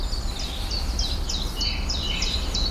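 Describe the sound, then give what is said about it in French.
Long-tailed tit trilling: many brief, thin, high trills repeat in quick bursts, faint above a steady low rumble. “Là, il y a de la mésange à longue queue. La petite trille qu'on entend à peine là.”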